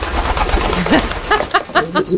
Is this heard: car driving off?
no